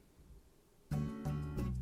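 Video game background music for the noon hour, a retro-style soundtrack that enters abruptly after a near-silent lead-in with sustained bright chords, shifting harmony twice over a steady low bass.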